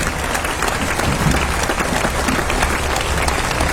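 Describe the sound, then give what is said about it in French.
An audience applauds a big band after its performance: dense, steady clapping from many hands, loud and continuous throughout with no voices over it. “vous pouvez les applaudir, c'est magnifique ça.”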